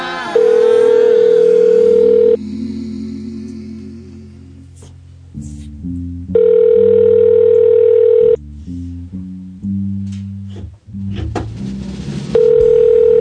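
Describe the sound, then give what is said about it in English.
Telephone ringing heard as a ringback tone: three steady electronic tone bursts, each about two seconds long, separated by roughly four-second gaps filled with lower background sound. “Something to do while the phone's ringing.”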